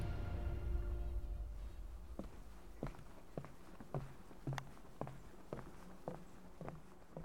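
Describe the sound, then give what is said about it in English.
Footsteps walking along a path into woodland on an estate: many faint, evenly paced steps under a low, steady background hiss. “We leave the lady at the Welcome Center and take our first steps into the woodland.”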